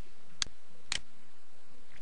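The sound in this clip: Two crisp computer mouse clicks, about half a second apart, faint and alone against a quiet background, while clicking a link in a web portal.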